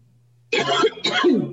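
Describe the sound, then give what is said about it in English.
A person clears their throat and coughs in two rough, raspy bursts separated by a brief pause. The sounds are loud and close, with no speech around them. “I'm wrapping up and I start coughing.”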